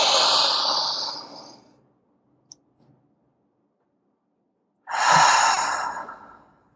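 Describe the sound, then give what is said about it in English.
Deep breathing: a long airy breath drawn in and let out, then a second long breath after a few seconds of near silence, with a tiny click in the quiet gap. “Could we take a moment to just kind of take a breath? Yeah. I'm gonna inhale.”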